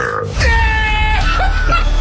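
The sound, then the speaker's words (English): A loud, long male burp, a deep rumbling belch with a harsh voiced tone that starts abruptly and holds for nearly two seconds. “Rip your loudest burp.”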